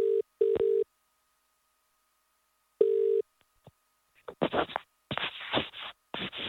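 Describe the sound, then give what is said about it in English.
Tones of a telephone number being dialed before a call: a few short, steady, pitched beeps, a gap, one more beep, then several rough bursts of line noise. No one talks. “We'll dial in his number, and you can take it away.”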